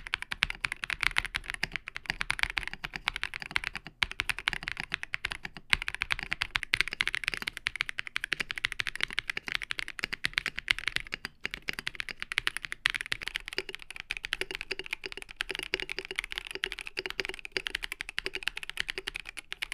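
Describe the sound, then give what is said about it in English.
Fast, steady typing on two mechanical keyboards, an Ikki68 Aurora R2 and a KBD67 Lite fitted with the same switches and keycaps, making a continuous stream of crisp, even key clacks without any talk. “For comparison, we'll hear it next to the KBD67 Lite, kitted out with the same switches and caps.”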